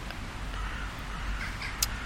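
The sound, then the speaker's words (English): Crows cawing from nests in trees at dusk: a few faint, hoarse caws rise over a steady outdoor background hum. “Now I'm situated under several crow's nests, but look, there's no harm.”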